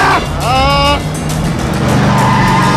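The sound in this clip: A car rams another car at a busy junction. A loud engine roar carries through, with a brief high squeal of tires partway through.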